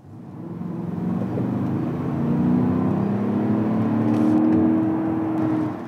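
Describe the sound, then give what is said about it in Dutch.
An Audi SQ7 diesel SUV drives with a steady, low engine drone and road whir that swells slightly partway through, with no talking. “We gaan rijden. De rijimpressie. Ja, en diesel is nog lang niet uit de gratie bij eh, Audi. Ik weet niet hoe lang dat nog gaat duren. Maar goed, voorlopig hebben ze nog de nieuwe SQ7.”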